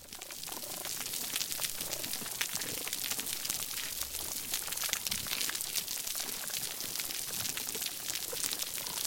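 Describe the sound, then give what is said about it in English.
Underwater soundscape of a healthy coral reef: a dense, continuous crackle of countless tiny snaps and pops at steady loudness, with no break throughout. “Let's listen again to that healthy coral reef that we started with.”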